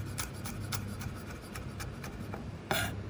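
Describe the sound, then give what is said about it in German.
A knife finely chopping pressed garlic for spaghetti aglio e olio gives soft, rapid, evenly spaced taps over a low steady hum, with one sharper, louder knock near the end. “Verschiedene Varianten gibt es, durch die Presse schneiden oder wie ich jetzt einfach pressen. So. Und dann aber, das ist noch wichtig, das Ganze ein bisschen fein runterhacken.”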